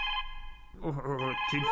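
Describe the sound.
A telephone rings with a short electronic tone, and then a voice begins talking.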